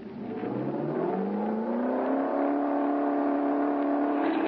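Engine of a car on a road test revs at full throttle, a loud, continuous roar whose pitch climbs steadily throughout, with no talk over it.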